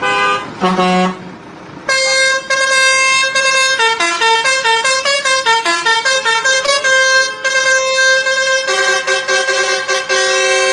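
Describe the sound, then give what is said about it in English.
A truck air horn honks: a few short blasts, then loud, sustained, brassy blasts that shift between several pitches in a tune-like sequence. “I know this one says truck horn.”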